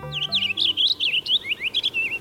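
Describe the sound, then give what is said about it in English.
Songbird singing while perched in a maple tree: a quick, bright warbling phrase of many high chirps and slurred trills, loud and clear on its own. “Not a purple finch. It's perched in a maple tree, singing.”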